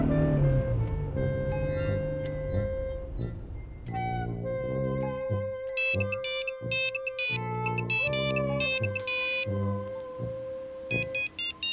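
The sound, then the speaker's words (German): A mobile phone ringtone on a new handset plays a bright electronic melody of clear beeping notes that step up and down, with quick repeated chime-like tones in the later phrases, loud and alone. “Was das Ding alles kann. Lustig, ne? Kann das auch das Steigerlied? Nee. Naja, vor Kohle ruft sowieso keiner mehr an.”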